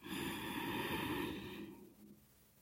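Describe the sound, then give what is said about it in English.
A slow, deep breath is drawn in through the belly during a guided breathing exercise. The steady airy rush lasts about a second and a half, then tapers off into quiet. “Take a nice deep breath in through the belly. Let that expand open.”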